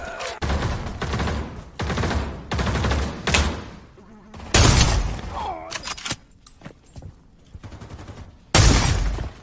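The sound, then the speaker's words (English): Gunfire in a video game: many loud, rapid bursts of shots in irregular clusters, with short gaps between volleys and one last heavy burst near the end. “Whoa, why are they shooting?”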